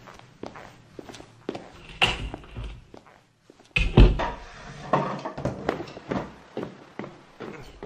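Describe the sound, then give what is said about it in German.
A door is wedged shut with a chair: footsteps and a few knocks, then a louder thud followed by a run of scraping, clattering knocks. No one talks. “Hat die Tür verkeilt. Wahrscheinlich mit einem Stuhl.”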